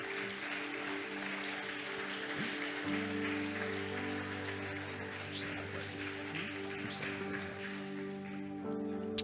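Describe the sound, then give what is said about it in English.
Audience applause welcomes a couple entering a baptism pool at a church service. A steady wash of clapping runs throughout over sustained low tones. “So I want us to give a warm welcome to Luis and Lauren. Let's give it up for them as they enter the pool.”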